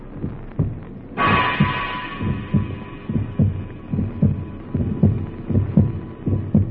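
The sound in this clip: A wounded man's weakening heartbeat thumps as regular, low, muffled beats throughout. A steady, higher hum joins after the first second and continues beneath the pulse.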